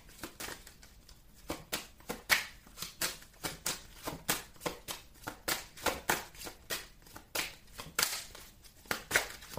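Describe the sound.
Tarot cards being shuffled for a Pisces reading, heard as many quick, soft riffling bursts in a steady, repeating rhythm with no talk.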